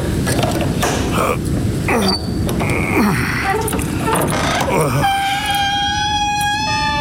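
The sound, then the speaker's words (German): A gate creaks open for a horse rider entering a courtyard: a long, high, whining creak with steady tonal squeals fills the final couple of seconds, following voices talking over low background noise. “Aber wenn das so ist, dann wird es dir ja nichts ausmachen, mir das Tor zu öffnen, damit ich in den Hof reiten kann.”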